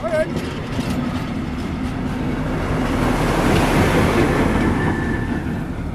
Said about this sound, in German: Jetzt kommt gerade die Lok vorbei.